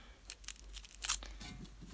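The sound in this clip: Aluminium foil crinkles and crackles as it is folded around slime. Many quick, bright, papery bursts come in an uneven rhythm, fairly faint.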